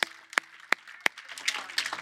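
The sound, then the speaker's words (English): A church audience claps as an offering of gratitude to God: four sharp, evenly spaced claps ring out, then denser, overlapping clapping follows. “Come on, if you're grateful for the presence of God, would you just give him a clap offering, because I'm grateful for his presence.”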